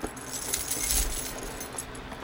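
A bunch of keys jangles and clinks continuously for about two seconds, a bright metallic shimmer with small rattling accents and no voices.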